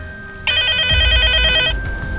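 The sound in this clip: A telephone rings for an incoming call: one bright, rapidly trilling electronic ring burst that starts suddenly and lasts just over a second, over a faint steady hum and low background rumble.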